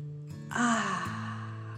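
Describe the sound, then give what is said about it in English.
A soft exhale through the mouth, a single breath-out lasting about half a second during a children's relaxation exercise, heard over a steady tonal background. “Breathe in, filling your tummy with fresh air, and then breathe out. Pretend fire is coming out of your mouth, and softly,”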